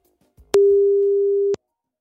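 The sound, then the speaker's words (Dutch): One ringback tone sounds as an outgoing telephone call is placed: a steady mid-pitched beep lasting about a second, after a few faint clicks, then silence. “Daarom ga ik even bellen met Joost van den Broek”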